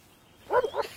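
A dog gives two short barks, a brief mid-pitched yap followed quickly by a slightly weaker second one, both fairly faint over quiet background noise.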